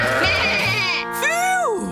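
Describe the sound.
Sheep bleating on a farm, with two or three wavering, nasal bleats, the last one rising and then falling in pitch, loud and clear over a low background of other sounds.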